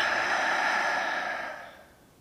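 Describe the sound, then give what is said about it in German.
A deep breath out during a guided yoga session, released as one long, soft, airy exhale that slowly fades to quiet. “Tiefer Atemzug durch die Nase ein. Füll dich mit Energie. Lass los, atme aus.”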